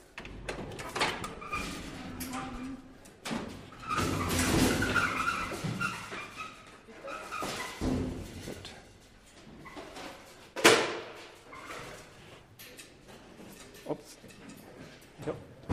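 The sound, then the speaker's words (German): An old elevator arrives and its doors open, with rumbling, scraping mechanical noise that swells and fades. A sharp clunk stands out partway through, followed by lighter knocks. “wir gleich ein Stück mit dem Aufzug fahren und der ist gefühlt genauso alt. Und ähm, da kommt auch schon der Aufzug. Dann wollen wir mal rein.”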